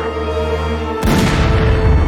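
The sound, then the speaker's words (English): A single loud gunshot breaks through a steady tonal hum, a sharp report followed by a lingering rumbling wash of noise. “Take the gun! Shoot him”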